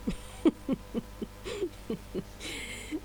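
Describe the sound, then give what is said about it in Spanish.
A northern ferruginous pygmy owl gives a steady series of many short, evenly spaced low toots, each note brief and fairly faint, repeating at a regular rhythm. “Había también el caburé norteño, por supuesto.”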